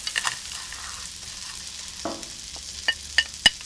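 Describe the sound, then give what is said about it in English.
Arborio rice, 350 grams, stirred in a frying pan, with a steady sizzle under scraping stirs and a few sharp clicks toward the end. “And now we are ready for the arborio rice. 350 grams. Stir it well.”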